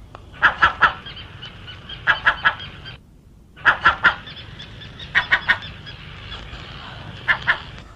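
Crows caw harshly in short clipped bursts of two or three calls, about five bursts separated by quiet gaps.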